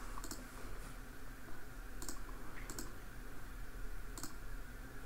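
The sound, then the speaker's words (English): Faint, sharp mouse clicks on a screen circle while setting up spellcaster character sheets, a few irregularly spaced taps over steady background hiss. “You click the you circle. You click the circle.”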